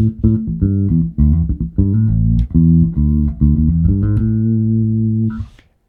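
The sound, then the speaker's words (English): A bass guitar played through both pickups, a deep compressor and an Ampeg SVT amp simulator, loosely and sloppily picked: a steady run of many punchy, heavily compressed low notes, loud and alone, ending on a sustained note that cuts off. “And then I've got a compressor and an amp sim here that are just, this is wild how good this sounds.”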